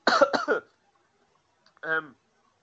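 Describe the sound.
Two harsh coughs in quick succession from a person who says they are choking, then a pause and a short voiced throat sound.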